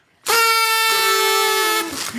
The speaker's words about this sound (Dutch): Gaan we nog eens toeteren? Ja, zeker. Oké, doen we.